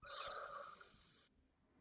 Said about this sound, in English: Let's try a few breaths this way. Inhale.